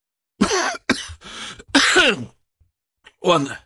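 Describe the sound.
A man clears his throat and coughs as his voice fails him, with several rough, raspy bursts in quick succession, then a pause before one final short burst.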